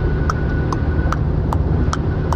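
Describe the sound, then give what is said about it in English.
A car driving, heard as a steady, dense low road rumble with a regular, sharp ticking repeating at an even pace above it, and no voices. “And we're driving, Amy.”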